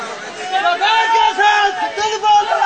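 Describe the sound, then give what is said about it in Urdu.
A crowd at a Ghadir celebration chants a slogan, with several loud bursts of massed shouting voices rising and falling in uneven waves. “نہ, نعرے کا یہ ادب نہیں ہے, جشن غدیر کا نعرہ ایسے نہیں ہونا چاہیے.”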